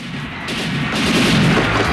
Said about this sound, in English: A guard fires at Richards, who guns him down.